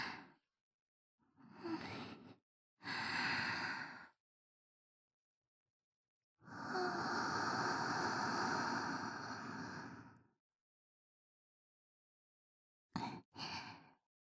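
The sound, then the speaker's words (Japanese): Deep breathing made up of slow, loud, airy breaths separated by silence. One long exhale stretches over several seconds in the middle, and two short, quick puffs follow at the end. “うん、深呼吸。”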